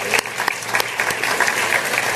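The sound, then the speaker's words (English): Audience applause at a civic discussion event in Chicago: dense, steady clapping from many hands that holds at an even loudness through the whole moment, with a few sharper claps standing out. “We can clap for them.”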